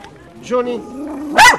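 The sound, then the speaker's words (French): A dog barks once, sharp and loud, near the end of a short stretch during a pet blessing, after a softer, tonal whine-like sound. “que tu sois un bon chien, hein, que tu sois un bon chien pour ta maîtresse, et que tu loues le Seigneur en faisant ton métier de chien.”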